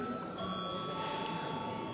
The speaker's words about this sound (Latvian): Lūdzu zvanu.